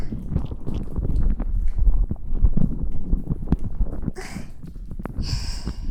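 Fingers rub and fiddle with the ears in an ASMR ear-touching session, making close, continuous crackly rustling and scratching with scattered soft taps and a few brighter hissy swipes near the end.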